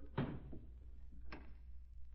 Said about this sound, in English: Here's the key. Lock the door behind us.